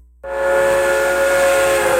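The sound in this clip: A steam train whistle sounds one long, loud, steady blast with a hissing edge. It begins abruptly after a brief silence and holds at the same pitch to the end.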